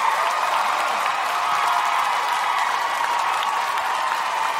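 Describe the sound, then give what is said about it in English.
Audience applause welcoming a guest onto the stage at a live show in Boston: a loud, dense, steady wash of clapping that holds at an even level throughout, with no break. “I don't get that type of applause.”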